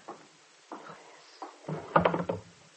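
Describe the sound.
A desk drawer is opened: a few soft wooden knocks, then a louder burst of rattling and clattering as it slides out, quiet overall.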